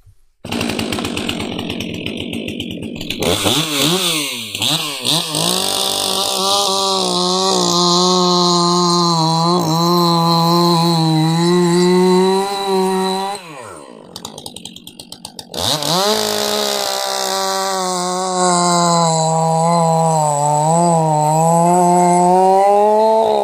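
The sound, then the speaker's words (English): A STIHL MS 400 C-M chainsaw cutting through a 16-17 inch larch log, its engine screaming loudly and steadily with a wavering pitch. The revs drop briefly midway, then climb back to full throttle. “a much lighter saw when we're trying to crank it over on the recoil. So yeah, that's the first thing that springs to mind when we pick the saw up and try and start it. So I'll crack on.”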